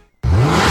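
A car engine revs in loudly after a moment of near silence, then holds as a steady, deep, powerful roar with a rich low growl.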